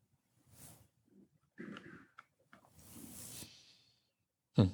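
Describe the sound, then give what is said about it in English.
Soft breaths taken at a prayer gathering: a few faint, airy breathing sounds separated by pauses, with a louder, abrupt sound at the very end. “So let us take a breath, and we'll move into prayer.”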